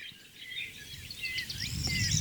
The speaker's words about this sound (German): Grauammer sehe ich da am häufigsten, setze ich gerne oben drauf, schaut sich in der Landschaft um und trägt ihr Lied vor,